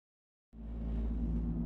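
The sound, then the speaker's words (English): Car tyres running over a roadside rumble strip: after half a second of silence a loud, low droning buzz starts abruptly and holds steady to the end. “That's the sound of a car crash being prevented by a rumble strip.”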